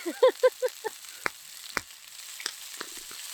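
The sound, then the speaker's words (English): Salmon frying in a pan as it cooks, a faint steady sizzle with a few sharp pops and crackles scattered through. “The salmon really does not take long to cook at all.”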